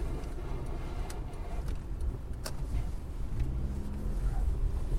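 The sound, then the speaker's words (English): A car pulls slowly into a parking lot with snow packed in its wheel wells, giving a steady low rumble of tires and engine with a few faint sharp ticks, growing slightly louder toward the end. “Sounds like I got some snow in the wheel wells here.”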